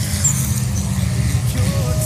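A race car drifting through a bend while battling for third place gives a loud, continuous low engine roar, with a faint higher whine toward the end.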